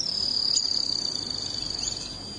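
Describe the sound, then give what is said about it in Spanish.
Song of a canastero bird: a rapid, high-pitched trill of many fast, even pulses that holds steady and fades slightly toward the end. “El trino del canastero.”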